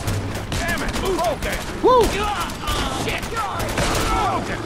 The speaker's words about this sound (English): Let's get out the missile launcher and some frag grenades.